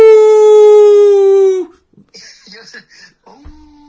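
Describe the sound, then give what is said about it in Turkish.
A person imitates a werewolf with a single loud, sustained howl that sags slightly in pitch over about a second and a half. It breaks off abruptly, followed by short, quieter vocal sounds. “Şimdi mutasyona uğruyorsun. Kurt adam oldun. Birden avuu de.”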